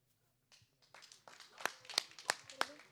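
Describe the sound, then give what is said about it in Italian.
Scattered audience clapping at a festival performance, starting faint and building into a few sharp, separate claps that grow louder toward the end. “Applauso per Reventivo.”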